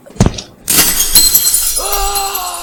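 Window glass shatters as a character leaps through it in a video game: a light tap, then a loud, bright crash that trails off in a sustained glittering tinkle.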